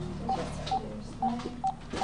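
Five short touch-tone beeps as a woman dials a telephone at a food co-op where volunteers sort food into boxes on a studio floor. The evenly spaced tones sound over a low background murmur.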